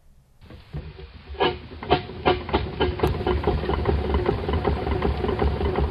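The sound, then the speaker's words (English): A steamroller engine running, with many regular chugging beats over a steady low rumble that stays at an even, fairly loud level throughout. “That's the sound of a steamroller, like the one being used on the night of the Ellen Vannon”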